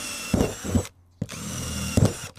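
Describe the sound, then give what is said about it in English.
A power drill bores drainage holes into sturdy plastic, a steady whirring buzz that stops briefly, then starts again and runs on with small changes in loudness. “Next up, we need those drainage holes, don't we, so make sure this doesn't fill with water and drown our plants. And as the plastic is quite sturdy, this time I'm drilling the holes in.”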